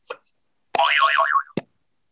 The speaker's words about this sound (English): I wish there was a more gentle version of the boing sound.